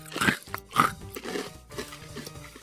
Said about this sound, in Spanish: Que se escuche bien. Está masticado. Bien ASMR.